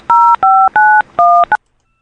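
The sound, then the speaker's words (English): Telephone keypad dialing tones entering a number into an automated phone line: five clean dual-tone beeps in an even rhythm, the last one noticeably shorter, followed by silence. “That was the number they dialed.”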